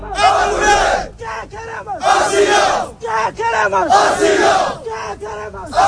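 About a hundred migrants of Moroccan origin on hunger strike chant together on a Ceuta beach, demanding asylum. A loud call-and-response pattern repeats, with long massed shouts alternating with short clipped replies.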